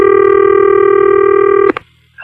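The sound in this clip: A loud, steady touch-tone telephone dialing sound holds for nearly two seconds while a phone call is placed, then cuts off with a click, a brief near-silent gap and the start of another sound.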